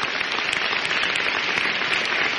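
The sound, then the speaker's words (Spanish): A church audience breaks into applause after a Bible reading. The clapping is full and continuous, with crisp individual hand claps standing out from the steady mass. “Denle un aplauso a la palabra de Dios.”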